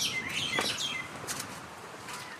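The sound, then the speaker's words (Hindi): Small birds chirping and tweeting, the sparrows, bulbuls and pigeons that gather at a home's windows for rice; a few quick, high, sweeping chirps come in bursts over a soft steady hiss, with no voices. “ये हमारे परिंदे हैं इधर। किसी का नाम चिड़िया है, किसी का नाम बुलबुल है, किसी का नाम कबूतर है।”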